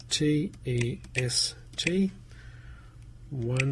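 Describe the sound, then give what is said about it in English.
Someone types a password on a Mac computer keyboard, a few short key clicks falling between bursts of a voice speaking over the keystrokes. “So let me type in the password, which we just put in on the personal hotspot setting.”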